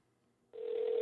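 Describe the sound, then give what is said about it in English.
A steady telephone ringback tone sounds while an outgoing phone call is placed, starting abruptly after half a second of near silence and holding evenly to the end, fairly quiet and with no talk. “so now we're going to try and make this phone call.”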